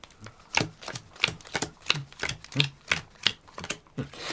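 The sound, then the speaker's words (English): Playing cards dealt out into a hand each, a brisk run of many crisp snapping flicks at a steady, even rhythm with no talk over them. “Now, I deal us a hand each.”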